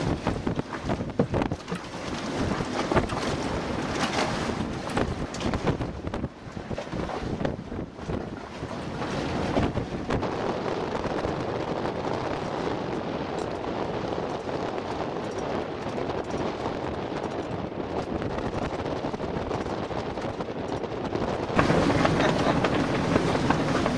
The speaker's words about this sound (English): All right, we're going to tack, so go ahead, Fran.